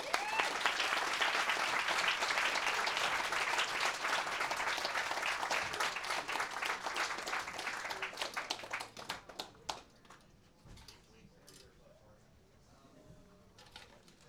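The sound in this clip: Audience applause greets a performer on stage: dense, loud clapping holds steady for about nine seconds, then thins out into scattered, fading claps.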